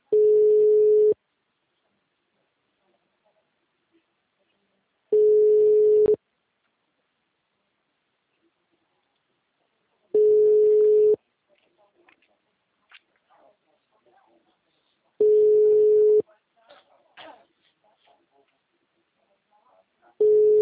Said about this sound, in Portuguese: porra desse telefone vive no mudo